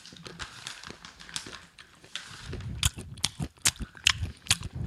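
Crunchy chewing of almonds and dried cherries: many irregular, sharp crunches with soft mouth noises between them, growing busier and louder toward the end.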